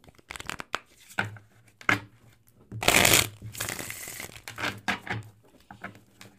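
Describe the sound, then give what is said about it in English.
Oracle cards are shuffled and handled in quick papery riffles and flutters, with a louder, longer burst of shuffling in the middle and softer card rustles around it, with no talking. “And then I want to pull an oracle card from you for the collective here to close this out with.”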